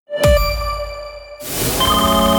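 A phone ringtone sounds as an unknown number calls. A bright chime strikes and rings out, then a second, fuller tonal phrase follows and holds steady.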